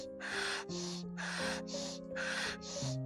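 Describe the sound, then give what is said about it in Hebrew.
Rapid rhythmic breathing during a timed power-breathing exercise set: six quick, forceful breaths in an even pattern over a steady bed of sustained musical tones. “נמשיך לנשום לפי הקצב.”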